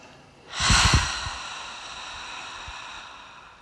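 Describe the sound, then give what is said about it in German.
A single breathy exhale during a guided relaxation breathing exercise, released in a soft rush about half a second in and then slowly fading into quiet, with no talk. “Ausatmen, lass los.”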